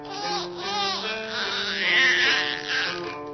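A baby cries in a string of wavering, wailing bursts that rise and fall in pitch, fairly loud and with no other voice over it.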